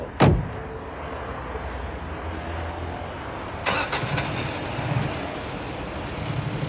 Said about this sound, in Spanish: lleno de ira, pone en marcha el coche.